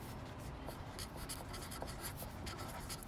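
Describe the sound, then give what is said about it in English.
Hand writing with a pen on paper: a continuous, soft scratching of quick strokes that runs steadily throughout, faint and with no voices. “I've written, like, one sentence because I can't talk and write at the same time.”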